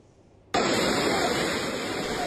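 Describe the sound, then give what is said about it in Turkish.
Floodwater rushes through streets after a violent downpour in İnegöl, Bursa. A dense, loud roar of water starts abruptly after half a second and continues steadily to the end. “Bursa'nın İnegöl ilçesinde şiddetli sağanak hayatı felç etti. Yollar suyla doldu, ağaçlar devrildi.”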